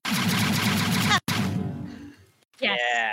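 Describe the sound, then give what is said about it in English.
A heavy chain cannon fires as a sound effect: a dense, rapid, rumbling burst of shots for just over a second, then a sharp cut and a fading tail. A voice follows at the end. “I'm imagining some sort of, like, heavy cannon of some sort, just kind of... Yeah, it's like a chain cannon.”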